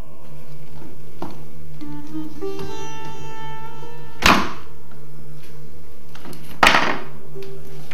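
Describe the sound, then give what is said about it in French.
Hinges on a cabinet door are clipped back into place with two sharp snapping clicks a couple of seconds apart, over a steady tonal background hum. “et ensuite vous pouvez réenclencher les pommelles.”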